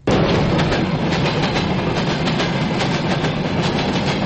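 A train runs along the railway heading west from Baku, a loud, steady rumble with a faint rhythmic clatter of wheels that continues without a break.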